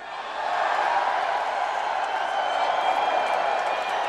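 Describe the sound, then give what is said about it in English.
Fans in a crowd applauding, starting quietly and swelling within the first half second into a loud, sustained roar of clapping and crowd noise that stays level to the end. “you're applauding the fans.”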